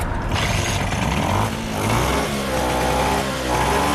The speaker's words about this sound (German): Die Vespa läuft wieder und hängt gut am Gas.